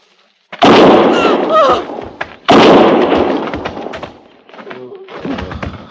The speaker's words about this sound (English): One more step, and I'll fire.